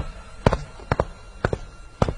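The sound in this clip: Footsteps walk into a hospital: four evenly spaced, crisp steps, each with a quick double heel-and-toe strike, over quiet background hiss.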